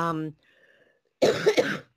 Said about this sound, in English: A smoker's cough, unfortunately.